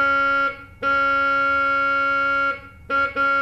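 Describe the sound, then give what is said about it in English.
A vox humana reed stop on a pipe organ, a reed voice meant to resemble a human voice, plays a few sustained notes at one pitch. The tone is nasal and buzzy, held for about two seconds at its longest, with short breaks between notes. “There's an unusual one called a vox humana, which is supposed to sound like a human voice, although I've never thought it very much did. It sounds like this.”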